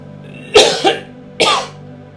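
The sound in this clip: Coughing and throat clearing from someone with something stuck in their throat: three harsh, loud bursts, two close together and then one more after a short pause, with no talk.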